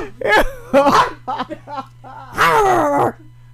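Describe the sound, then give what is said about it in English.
A dog barks and yelps in a few loud, tonal bursts separated by short pauses, with a steady low hum underneath. “I think that's what our newest member of the dog crowd is saying.”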